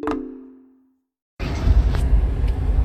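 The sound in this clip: A car driving in Pittsburgh gives a low, steady road rumble. Before it starts, a bell-like chime rings and fades away, followed by a brief silence.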